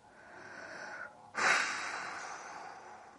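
A man's deep breath in a drama scene: a soft, airy breath, a brief pause, then a louder, longer breathy rush that slowly fades. No voices are heard.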